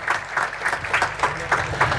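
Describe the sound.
Audience applause for a priest at a Tarnów pilgrimage gathering: steady clapping from many hands with regular, pulsing accents, moderately loud and unbroken.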